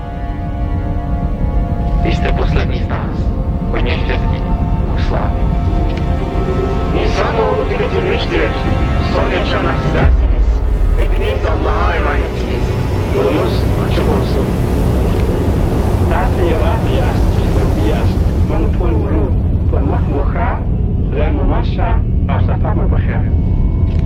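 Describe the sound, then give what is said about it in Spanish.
The spaceship Elysium takes off in a film with a heavy, sustained roar and low rumble that stays loud from start to finish, and scattered higher bursts flare over it. “Despega la nave espacial Elysium.”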